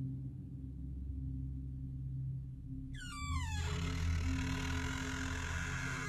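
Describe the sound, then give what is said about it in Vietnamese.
A toilet door creaks with a high, squealing sweep that drops quickly in pitch. A steady, noisy wash follows and holds to the end. No sharp slam stands out. “Cánh cửa nhà vệ sinh rít lên ken két rồi đóng sầm lại.”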